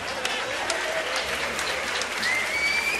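Audience applause: dense, steady clapping from a crowd fills the whole stretch at an even, moderate loudness with no pauses.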